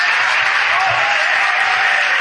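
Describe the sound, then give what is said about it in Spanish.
An audience applauds at the close of a long two-hour talk, the clapping dense, loud and even throughout without a pause. “por favor, un aplauso para José Miguel”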